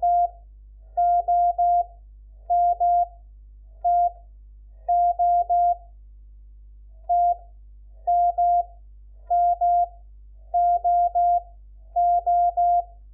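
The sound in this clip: Morse code tones sent as groups of letters in a code lesson: short and longer beeps at one steady mid pitch, clustered with gaps between letters. They play alone over a faint low hum.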